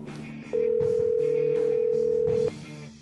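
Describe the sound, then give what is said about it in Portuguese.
Ringback tone of an outgoing telephone call: one steady, mid-pitched tone lasting about two seconds over faint background sound. “É discando aqui. Espero que ele atenda já no primeiro toque, né? Pra não tomar muito o tempo de vocês. Vamos lá, chamando.”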